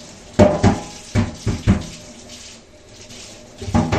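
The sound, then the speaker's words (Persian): Water from a tap splashes into a sink in a few short, loud bursts, separated by quieter running water. “بذار من آبو ببندم صدام درست بیاد.”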